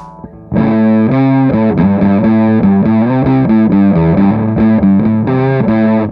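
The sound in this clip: A dark, bass-heavy fuzz riff plays through a Muff fuzz pedal with its tone knob turned to the low end. Thick, saturated notes change in a steady rhythm and sustain loudly with no talking.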